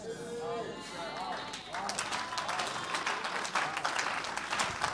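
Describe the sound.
An audience at a church sermon claps in steady, dense applause throughout, with a voice heard over the clapping.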